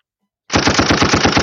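A machine gun sound effect fires a rapid, continuous burst of evenly spaced loud shots. It starts abruptly after half a second of silence and keeps going without a break.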